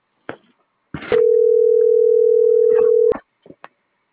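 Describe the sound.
A telephone dial tone sounds after a call is cut off: one steady, unbroken pitch lasting about two seconds, with brief clicks and short noises just before and after it.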